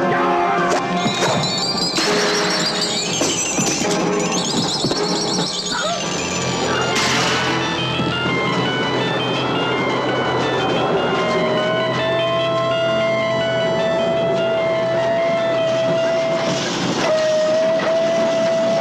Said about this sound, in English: You've just heard the trailer for our first movie review. Like I said, it's this is number 10 on my Christopher Lee list for performances. It's Horror Express from 1972, directed by Jean Martin or Gigiano Martin.